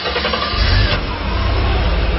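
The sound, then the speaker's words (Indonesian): A car engine starts with a single turn of the starter, a loud low rumble swelling after half a second and then running steadily at idle. “aku kembali ke mobil dan coba menyalakan mobilku.”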